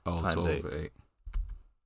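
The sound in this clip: Clicks on a laptop keyboard follow a brief stretch of a man's speech: a couple of quick, sharp taps after the voice stops, faint against the quiet that follows.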